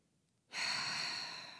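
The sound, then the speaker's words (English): A long, steady exhale of breath during a guided breathing exercise, starting abruptly after a moment of quiet and holding as a soft, even breathy hiss that fades only slightly toward the end. “So let's exhale all our air together.”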